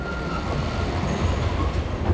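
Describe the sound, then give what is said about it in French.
A rail cart rolls on its tracks with a dense, steady, rumbling roar heavy in the lows, and a thin squealing tone rides faintly above it near the start. “Un chariot vient de s'arrêter tout près de nous.”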